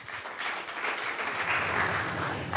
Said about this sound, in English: Please give a warm welcome to Mr. Joe Matthews.